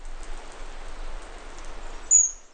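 Rain falls steadily where birds are building nests, a faint even hiss of drops. One brief high-pitched squeak cuts through near the end.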